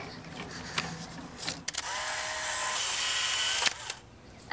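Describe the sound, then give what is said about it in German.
A camera shutter fires as a photo is taken: a few faint, sharp clicks with a brief rushing noise between them, heard alone without voices. “Okay, darf ich ein Foto machen?”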